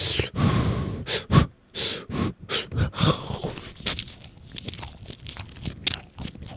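Soft, moist chewing of a bite of fluffy cream-filled bread, with quiet mouth smacks and breathy bursts that are louder at first, then settle into fainter, irregular squelching.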